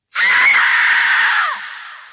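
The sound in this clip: A woman's terrified scream used as a horror-story sound effect: a single loud, high, sustained shriek of about a second and a half that drops in pitch as it trails off.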